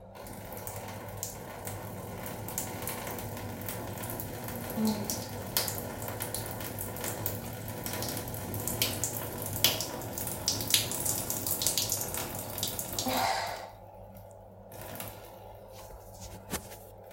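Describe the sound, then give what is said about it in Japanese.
Urine streaming while standing, a steady splashing liquid flow that runs continuously for about thirteen seconds and then stops abruptly, leaving only faint quiet drips. “じゃあ立った状態でおしっこの音流していこうと思います。じゃあ流します。”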